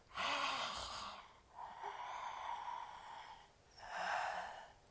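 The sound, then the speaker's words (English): Soft, airy breathing through a wide-open mouth with the tongue stretched down toward the chin, three long, hoarse breaths with short pauses between them. No speech. “Touch your tongue to the tip of your chin and breathe through the open mouth.”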